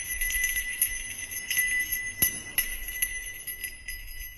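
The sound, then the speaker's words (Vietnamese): A small hand bell shaken during murmured ritual prayers with incense jingles repeatedly, giving bright metallic ringing and several sharper strikes that continue through the whole stretch without voices. “Thỉnh thoảng cậu cầm cái chuông chó mà cậu lắc lên len ca len keng.”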